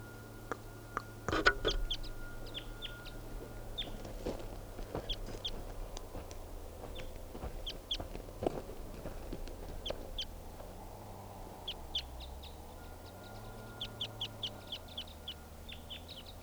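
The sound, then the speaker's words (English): A deep-voiced wild bird calling early in the morning; low droning calls recur while many sharp, brief chirps from other birds sound above them, all fairly faint. “Very deep voiced wild bird.”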